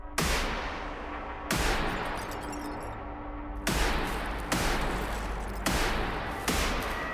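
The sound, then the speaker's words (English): Gunfire from a .30 caliber carbine rifle fired into a house: six loud, sharp shots at uneven intervals, each trailing off in a long, dense decay that fills the gaps between them. “The gunman fired nine shots into the home before speeding off.”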